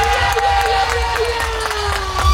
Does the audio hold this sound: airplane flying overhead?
no